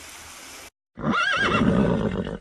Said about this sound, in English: On the shore, horses walk at a steady pace.